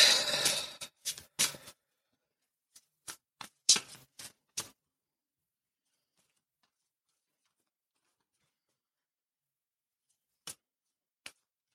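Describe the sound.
Tarot cards are shuffled during a card reading: a few papery riffling bursts open the passage, then sparse light clicks and taps follow, separated by long stretches of silence.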